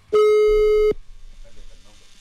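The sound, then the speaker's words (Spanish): A telephone line tone sounds while a radio host dials a caller, one steady, loud, buzzing pitch lasting under a second, then a faint murmur. “Vamos a marcar entonces, de una vez de volada.”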